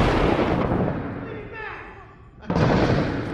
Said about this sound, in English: He's shooting from outside, right?